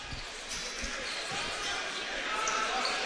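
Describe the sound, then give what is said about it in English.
A basketball is dribbled on a court during a game, with repeated low thumping bounces under a commentator talking. “Again, two dribbles. Deep knee bend, shot is up.”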